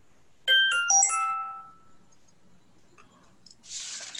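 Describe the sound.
A mobile phone ringtone for an incoming call from an unknown caller: a short, bright melodic phrase of a few quick notes lasting about a second, followed by faint clicks and a brief hissing rustle.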